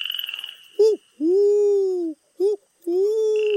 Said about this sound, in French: Fait une chouette.